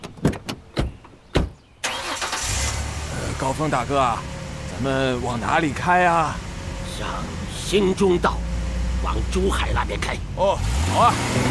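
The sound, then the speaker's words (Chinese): A car engine starts and keeps running under voices, after a few sharp clicks. The engine sound is a steady mid-pitched rumble while people talk over it. “你去开车。”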